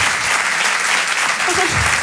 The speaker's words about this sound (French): Applaudissez ceux qui ont fait du catéchisme.